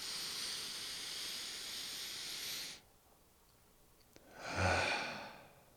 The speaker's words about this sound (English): Breathe as deeply as possible, at least once every few minutes. That's a good cure for anxiety as well. Let's do it together.